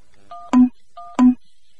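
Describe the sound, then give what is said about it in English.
Telephone keypad tones on an online calling service: two short tone presses separated by a brief pause, each ending in a louder, lower beep. “Please dial another person. Type out number now.”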